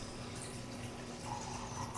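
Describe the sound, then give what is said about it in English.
Liquid pouring as 25-year-old Talisker whisky is poured out, a faint, steady trickle lasting about two seconds with no talk over it. “And the 25-year-old Talisker. If you wouldn't mind pouring me out.”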